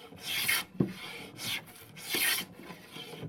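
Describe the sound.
Rasping strokes of a file or rasp smoothing wood in a small workshop, with several broad scratchy passes separated by short pauses, and a duller scrape between them.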